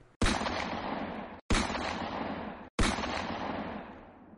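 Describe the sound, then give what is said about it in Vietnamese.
Three rifle shots fired at a shooting target, each a sudden loud crack with a long, slowly fading tail. They are evenly spaced, about a second and a quarter apart. “Ba phát súng vang lên, trên hồng tâm lập tức xuất hiện ba cái lỗ.”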